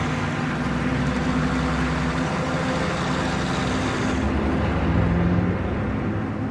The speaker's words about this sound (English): The truck follows close behind. The rig passes Helen's car.